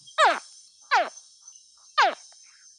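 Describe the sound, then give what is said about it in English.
A young crocodile gives short, high chirping calls that sweep sharply downward. Three clear chirps come at uneven intervals, and a fourth is cut off at the end, all over a thin, steady high-pitched hum. “It's a crocodile, a young crocodile.”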